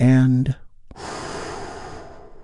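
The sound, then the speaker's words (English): A big, deep, healing breath taken during a guided relaxation: a long, airy rush of breath that follows a brief voiced sound and fades slowly over a couple of seconds. “Let's take a big, deep, healing breath with me right now.”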